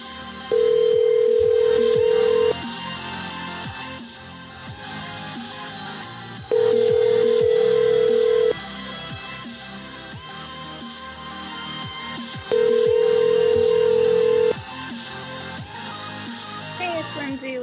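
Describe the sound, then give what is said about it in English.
A telephone ringback tone sounds on a call to a phone that goes unanswered: three steady two-second tones in a regular cadence, separated by pauses over continuous background noise. “It's clearly ringing too. It's not like she's on the flight now and the phone's turned off. Like it's it's probably sitting there ringing.”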